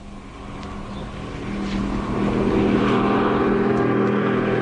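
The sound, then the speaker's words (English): A car engine running steadily on a drive toward the coast, the car playing up with a fault. The low continuous rumble grows slightly louder as it pulls in, with no voices. “I'm on my way to the coast, and the wretched car's gone all temperamental.”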